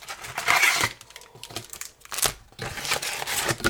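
Topps Chrome Platinum trading card wax packs being torn open: uneven spurts of crinkling and ripping wrapper, several rustling bursts separated by short pauses.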